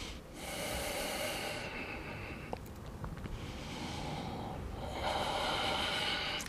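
Slow, deliberate breathing in and out during a lumbar floor exercise: a few long, airy breaths of soft hissing air, faint and unhurried, with no talking.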